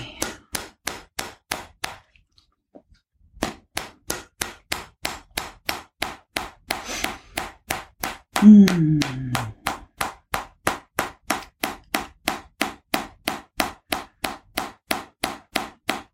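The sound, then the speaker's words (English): Fingertip tapping on the top of the head over the hypothalamus: many quick, even, sharp pats in a steady rhythm, with a short pause near the start and a brief vocal sound partway through. “Tapping on the hypothalamus. Balance the hormones in the whole body.”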